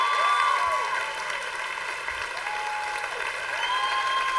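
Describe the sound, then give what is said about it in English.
Applause from a church audience welcoming two guests, dense and steady clapping that holds at a loud level through the whole stretch. “I want to ask you, with everything that you've got, to stand to your feet and give a crazy Lake Hills Church welcome to Roy Spence and Jared Dunton.”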